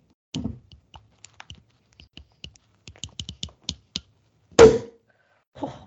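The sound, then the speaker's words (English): The cork comes out of a bottle of Brut Mum sparkling wine with one loud, sharp pop. Before it come a series of small clicks and ticks as the bottle is worked open, and a brief softer rustle follows. “am popping open a bottle of Brut Mum because my sister did a Amazon Fresh order and they have that.”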